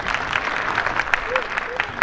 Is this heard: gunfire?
no